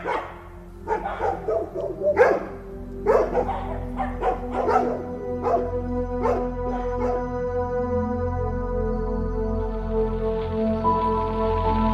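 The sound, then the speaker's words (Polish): Dogs barking in loud, irregular bursts through the first half, the barks thinning out as a steady low hum continues underneath. “W dzieciństwie te szczekające psy, ten dźwięk budził grozę.”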